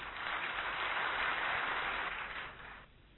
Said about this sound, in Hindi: आदरणीय भ्राता राजू भाई पधारे हुए हैं, हम सब मिलके उनको कर्तक ध्वनि से हम स्वागत करेंगे।